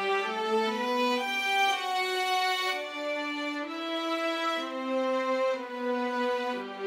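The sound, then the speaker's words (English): Strings play a grand melody that climbs and falls, with sustained bowed notes stepping up and down in pitch in a smooth, flowing line at steady volume, with no voices. “The second building block is what I'll call the climbing and falling strings. And this is a really grand melody that happens a lot throughout this tune. It's definitely another one of the major defining sounds. It is typically played by the strings, and it sounds like this.”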